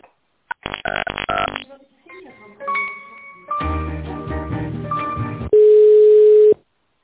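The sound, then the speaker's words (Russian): A telephone line tone plays while a call is being transferred: a steady electronic tone holds for about a second at the end, after earlier bursts of mixed sound. “Немножко можете, пожалуйста, подождать? Сейчас я с Алиной Валерьевной вас соединю.”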